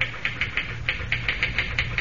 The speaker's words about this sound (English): Boy, you sure can pound that machine. Think I'll ever be able to type like that?